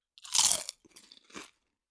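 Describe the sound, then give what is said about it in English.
Barbecue potato chips crunch between the teeth in a short, isolated burst. One loud, crisp bite is followed by a few softer chewing crunches. “And that sounded good for audio, I'm sure. The crunching. All right, ready? Here we go. Ready? I'll crunch again.”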